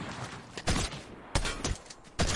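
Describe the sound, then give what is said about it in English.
Shotgun blasts in a video game: three loud, abrupt booming shots, spaced apart, over a steady noisy game background. “And shotgun and shotgun and shotgun. Made me waste all my ammo, dude.”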